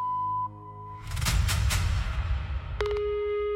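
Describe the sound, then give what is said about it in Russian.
An answering machine beep: a steady tone opens, a noisy stretch follows, then a lower, clean sustained tone sounds from near the end and holds to the finish. “Оставьте сообщение после звукового сигнала.”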